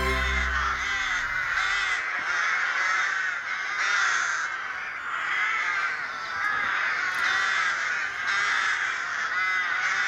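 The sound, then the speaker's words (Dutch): Rooks, crow-like birds, caw as a big flock gathers after foraging to roost together on a tree-lined bank in Zutphen. Many overlapping harsh caws form a loud, steady chorus throughout. “Dit is het gezellige geluid van roeken. De kraaiachtige. Deze roeken zoeken elkaar op om na het fourageren samen te gaan slapen aan de boompjeswal in Zutphen.”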